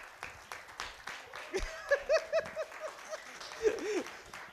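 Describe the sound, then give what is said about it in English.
Applause from a church audience welcoming a new member, a busy patter of claps with a few shorter swells, mixed with cheering voices and some laughter. “So if you could stand and give him a hand.”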